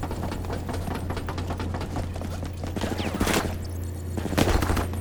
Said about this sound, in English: I have him targeted. I'm shooting him now.